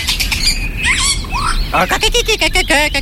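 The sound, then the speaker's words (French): Common chiffchaff song: a steady run of short, high repeated notes in an even rhythm, preceded by a few scattered chirps over a constant low background hum. “Oh, le joli Philoscopus colibita.”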